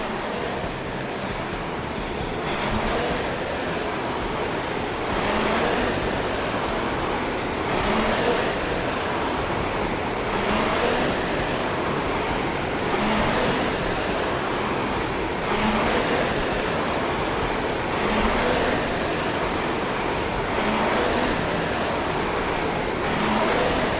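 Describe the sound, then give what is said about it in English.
A RowErg rowing machine's air flywheel spins through a workout with a continuous wind-like whoosh that swells in steady, regular surges with each stroke. No voices are heard. “Hopefully you can feel yourself at your catch position, lock in, and then you're making that flywheel spin”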